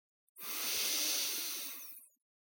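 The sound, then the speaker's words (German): A single deep breath drawn in, a smooth, breathy hiss that swells quickly, holds for nearly two seconds and then fades, heard alone against silence. “Wir nehmen gemeinsam zwei tiefe Atemzüge. Tief ein”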